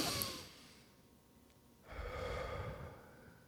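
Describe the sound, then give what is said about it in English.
A person takes a deep breath in and out, heard as two soft, airy breath sounds separated by a quiet pause, faint overall. “Just everyone just take one deep breath in and out and see how that feels, right?”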